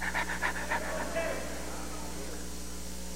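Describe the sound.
A voice imitates a dog panting with its tongue out, a quick rhythmic series of breathy huffs that stops partway, leaving a faint steady hum.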